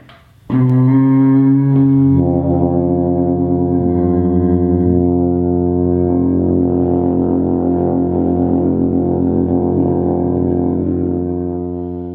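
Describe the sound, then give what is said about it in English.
An alphorn plays a low, rumbling note that enters sharply after a brief silence. The rich tone shifts slightly early on, then holds loud and steady before thinning slightly at the very end. “It's the Alp horn. You probably know it from the Ricola commercial, but it can play a high F note or it can do a low rumble, which sounds like this.”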